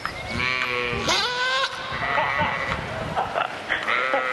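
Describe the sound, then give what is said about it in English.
Goats at a goat beauty contest in Ramigala bleat loudly, with several wavering, nasal calls overlapping one another throughout. “That was the sound of some very glamorous goats.”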